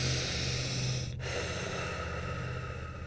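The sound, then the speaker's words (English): A slow, deep breath drawn in through the nose and released through the mouth: a steady, airy rush of breath, with no talk. “Take a deep cleansing breath in the nose and out the mouth.”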